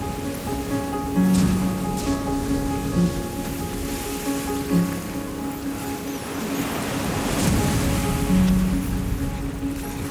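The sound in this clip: Stormy sea waves breaking over an inflatable boat, a broad hissing rush of churning water that swells and surges in the later part, with steady low tones running beneath.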